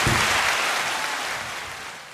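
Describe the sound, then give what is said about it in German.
Audience applause for a short astrology segment, a soft wash of clapping that thins out and grows steadily quieter over about two seconds. “So, Applaus ebbt ab.”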